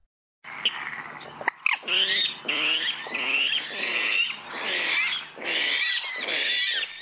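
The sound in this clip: A bird's harsh, grunting calls that sound like a pig's squeals, repeated many times in rough, nasal bursts with short gaps between them.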